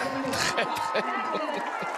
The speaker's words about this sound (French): Un torrent d'applaudissements.